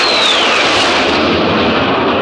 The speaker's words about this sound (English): Make that an F1 race car. On second thoughts, an F111 jet.